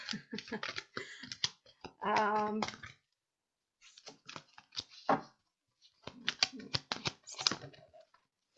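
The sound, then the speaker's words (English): Oracle cards are pulled out of their pack, making quick papery rustles and crisp clicks in uneven bursts separated by short pauses. “Okay, so they told me they want three cards from this pack. So I'll get the cards out first and then we'll see what the energy is.”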